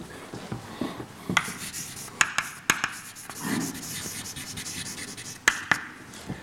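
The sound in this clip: Handwriting during a lecture on protein polymerization: soft, faint rasping strokes broken by a few sharp taps, with no talking.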